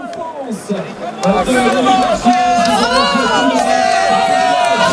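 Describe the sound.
Spectators cheer at a cycling race podium as the day's most combative rider is honoured, a loud, steady crowd roar with many voices and shrill calls that swells after the first second and holds to the end.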